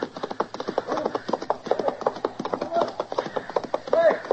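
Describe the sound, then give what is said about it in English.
Hooves of a bolting horse pound in a fast, steady galloping rhythm of many loud thuds, with a voice briefly heard over them. “His horse bolted on him. Or else he's trying to get away.”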